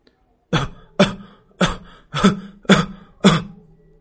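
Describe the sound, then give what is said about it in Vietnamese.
Six dry, hacking coughs from a small fox lying on a table, evenly spaced sharp bursts that each fade quickly, loud and alone. “cậu phát hiện ra tiếng ho này phát ra từ hồ ly đang nằm trên bàn”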